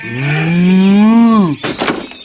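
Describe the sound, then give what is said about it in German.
A young bull calf moos beside its mother: one long, loud, tonal call lasting about a second and a half, its pitch rising gently and then dropping away at the end. “Raphael, der kleine Stier mit seiner Mutter”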